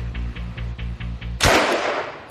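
A Sten submachine gun fires a single loud, sharp report that decays into a noisy tail, preceded by a steady low rhythmic pulsing of about six even beats.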